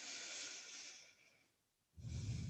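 Breathing during a yoga vinyasa flow: a long, airy exhale fades out into a brief silence, then a stronger, rougher breath begins.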